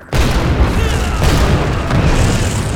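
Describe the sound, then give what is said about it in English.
A multi-round projectile launcher fires in a mountain showdown. The repeated blasts merge into one dense, loud, low booming roar with no separate shots standing out, starting suddenly and staying steady throughout. “Cizo unslung the multi-round projectile launcher and began chugging away the final”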